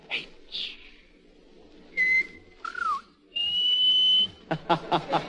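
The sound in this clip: A person whistles a string of fairly faint notes: a few short tones, a falling note, a long held pitch, then a quick run of short chirps.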